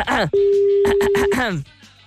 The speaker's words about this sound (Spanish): Ya, estoy llamando, no sé ni siquiera si marqué bien. ¡Ay, sí suena! ¡Ay, ay sí suena, Dios mío!